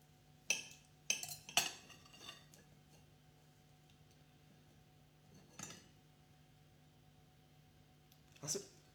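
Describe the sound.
Cutlery cuts through a breadcrumb-stretched meatball on a plate, giving a few sharp, quiet clinks, clustered early then spaced apart, over a faint steady hum.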